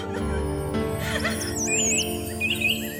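A small bird chirps in a children's fairy-tale scene, giving several high, sliding tweets and whistles over a soft, sustained background.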